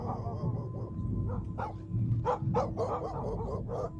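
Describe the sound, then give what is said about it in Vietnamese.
A white dog barks while running alongside a bicycle, giving a series of sharp, yapping barks in an uneven rhythm over a steady low rumble. “Con chó trắng từ nãy đến giờ nó cứ chạy song song theo xe mình, nó sủa kia kìa.”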